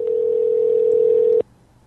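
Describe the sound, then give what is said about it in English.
A phone call's ringing tone sounds as a Verizon Wireless mobile is rung: a single steady, mid-pitched tone lasting about a second and a half, then cutting off abruptly into near silence. “Let's just ring his phone nonstop.”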